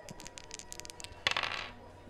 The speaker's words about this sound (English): Dice roll number 12.